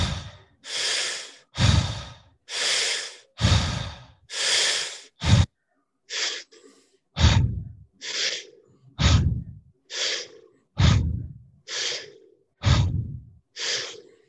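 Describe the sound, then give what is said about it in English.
Deep, forceful breaths drawn in through the nose in a steady rhythm, many loud breaths in and out in quick succession, with no talking. “we're going to take a big breath in through our nose and we're going to hold it for 15 seconds.”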